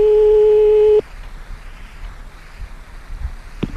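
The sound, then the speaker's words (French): Steady telephone line tone heard while redialing the same number, holding a clean, even pitch for about a second before cutting off abruptly and leaving only low background noise. “Allez, une deuxième fois, on rappelle une deuxième fois. Toujours, on essaie toujours deux, trois fois le même numéro.”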